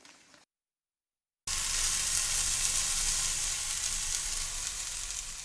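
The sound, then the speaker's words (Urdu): Chicken frying in a non-stick frying pan without oil: after a brief faint noise and a second of silence, a steady, bright sizzle starts abruptly and continues evenly, with no talk. “ایک تجویز یہ ہے کہ اسے naan stick frying pan میں پکا لیا جائے۔”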